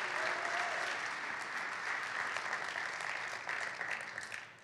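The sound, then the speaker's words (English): Applause from a church audience welcoming a speaker to the front: a soft, steady wash of clapping that holds evenly, then thins and fades at the end. “And so can you put your hands together and welcome Chantel as she comes?”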